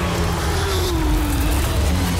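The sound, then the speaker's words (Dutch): Porsche Supercup race cars roar around the Zandvoort circuit in a dense, loud, continuous engine wash, with one tone sliding steadily downward in pitch. “De Porsche Supercup dendert over Zandvoort. Volop strijd. Volop geluid.”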